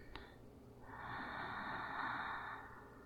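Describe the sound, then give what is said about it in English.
A slow, deep breath in during a guided relaxation exercise, a soft steady airy hiss lasting nearly two seconds after a brief sniff at the start, with no talking. “Take a deep breath in”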